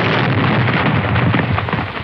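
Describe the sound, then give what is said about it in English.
An explosion sound effect plays from a computer: a loud, continuous roaring rumble fills the whole clip, heavy and dull with no sharp crack, and stays steady throughout. “it's not the same explosion. It's not the same one. Haven't found it. No, that's not the one. Really good one.”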